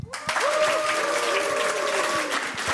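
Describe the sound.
An audience at a live show breaks into clapping on cue. The applause starts abruptly after a brief pause, then holds as a dense, steady roar of many hands before easing slightly near the end.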